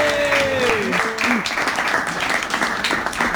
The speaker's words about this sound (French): est-ce qu'on peut faire du bruit pour Flora, s'il vous plaît, qui se lance à l'eau